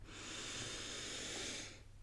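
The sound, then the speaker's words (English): One long, deep inhaling breath, a soft, steady airy hiss lasting almost two seconds that fades at the end, faint and alone. “let's take a nice deep breath, inhaling fully,”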